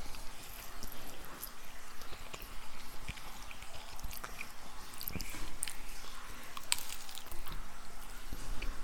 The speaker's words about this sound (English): That's what I like about a brat. When you bite into it and you can hear that intestine rip.